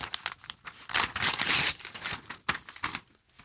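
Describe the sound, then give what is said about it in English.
A paper envelope is torn open, giving several bursts of crisp crinkling and ripping that peak in the middle before a few quieter rustles. No voices are heard. “Okay, someone's just handed me this envelope. Let me just open the envelope.”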